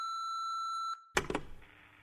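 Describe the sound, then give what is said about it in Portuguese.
A voicemail new-message beep: one steady, sustained electronic tone lasting just under a second, followed after a brief gap by a short burst of clatter and faint noise. “Você tem uma nova mensagem.”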